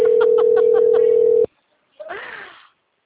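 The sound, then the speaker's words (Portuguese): A telephone tone, linked to a busy line, holds one steady pitch for about a second and a half and then cuts off abruptly. A short, separate vocal sound follows after a pause. “acho que ela não pode atender. O número está ocupado.”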